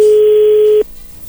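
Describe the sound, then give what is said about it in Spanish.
A telephone call ringing out: one loud, steady, mid-pitched electronic ring tone holds for under a second and then cuts off, leaving a quiet line. “vamos a llamarle, Francisco, a Karen y vamos a ver si te manda los chocolates a ti o se los manda alguien más”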